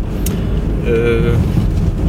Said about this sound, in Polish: Jesteśmy w samochodzie w Bronowicach Małych. Y, jedziemy sobie w kierunku.